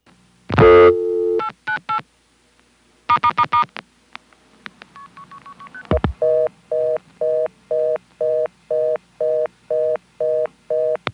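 Touch-tone dialing on a line to a number 2 ESS telephone exchange: a loud burst, then a short group of quick tones and four rapid key tones. A long, steady series of evenly spaced repeating tone bursts follows.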